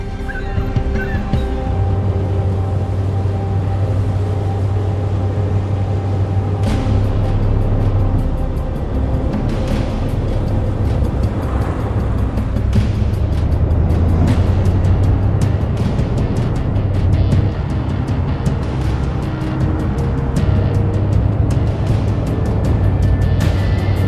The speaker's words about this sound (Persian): لطفاً از کشتی فاصله بگیرید تا چند لحظه دیگه حرکت میکنه.